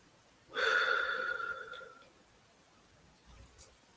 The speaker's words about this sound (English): Let's breathe. That was a lot. Let's take some deep breaths. In through your nose and out through your mouth.